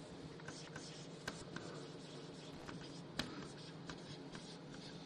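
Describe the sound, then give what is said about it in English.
Faint, continuous scratchy strokes of writing on a board, with a few sharper taps standing out against a steady rustling background. No one talks. “I'm going to write it up here while we're waiting for that.”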